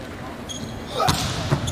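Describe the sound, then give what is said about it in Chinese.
Hard straight-line volleyball jump serve scoring an ace for China at 14-11, heard as a few sharp, fairly faint thumps and smacks in the second half over a low, noisy background. “好发球，王明的直线大力跳发直接得分，中国队拉开比分14-11。”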